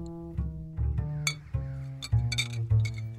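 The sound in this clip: Glass Sint-Bernardus beer bottles clink as they are handled and opened in a garden, giving a few bright, sharp clinks spaced through a steady low tonal hum.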